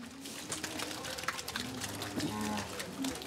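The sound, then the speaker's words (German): Cows on an organic dairy farm, let out to pasture after early milking, give a few low, drawn-out moos over a steady background of clattering knocks and shuffling. “Ich lerne, Kühe sind Frühaufsteher. Um 3 Uhr wurden alle schon gemolken. Und jetzt dürfen sie endlich raus auf die Weide.”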